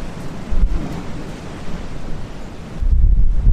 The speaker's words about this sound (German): Aber das, du hörst jetzt, das ist der Atlantik.